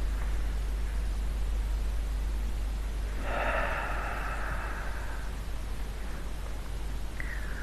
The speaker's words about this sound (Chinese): 那我们来完整的尝试一下：吸气，